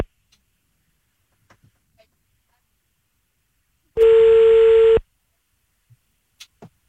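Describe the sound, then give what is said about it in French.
Ringing tone of a telephone call being placed: a few faint clicks, then one steady ring of about a second, followed by silence and a few more faint ticks. “On appelle maintenant Gaëtan.”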